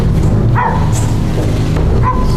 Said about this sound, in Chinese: 哪来的狗叫声？